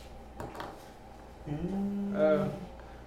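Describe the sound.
A door opens in a video game with a soft clunk, then a low, drawn-out mechanical groan that swells and fades, faint throughout.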